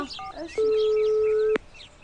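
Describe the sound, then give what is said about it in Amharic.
A phone line rings after a call is dialled: one steady, mid-pitched ringback tone holds for about a second, then cuts off, with faint chirpy sounds in the background. “ስልኳ እየጠራ ነው።”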